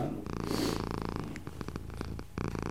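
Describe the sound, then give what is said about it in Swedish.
A cat purrs in a low, steady, quiet rumble that continues throughout, with a few soft clicks mixed in. “Men ska han spinna?”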